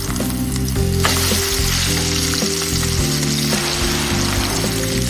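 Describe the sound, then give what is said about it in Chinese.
Chicken stir-frying in hot oil in a wok, with a loud, continuous sizzle and the scrape and rustle of stirring throughout. “先将鸡肉煸香盛出，留下底油，倒入秘方蚕豆酱”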